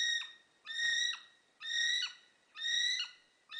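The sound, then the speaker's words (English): A kiwi, the flightless New Zealand bird, gives clear, shrill whistled calls, each about half a second long. They repeat in a steady rhythm with short silent gaps between them. “That was the call of the kiwi, a flightless bird indigenous to New Zealand.”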